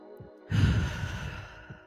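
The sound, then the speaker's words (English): A deep breath, ending in a long, loud, breathy exhale that swells suddenly and then slowly fades. “let's take a deep breath.”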